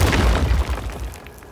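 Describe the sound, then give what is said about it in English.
Fireballs explode and blast a hole in a ceiling. A heavy rumbling boom is already under way and fades out with scattered crackles. “that emotion sends fireballs flying out of my hands that explode a hole in the ceiling.”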